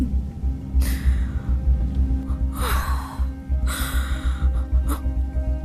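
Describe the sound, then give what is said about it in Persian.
Someone blows out birthday candles with a few breathy, hissing puffs of air. The puffs are spaced out over a low, steady background hum. “نفس بکش، یه نفس عمیق. همه این شمعاتو فوت کن.”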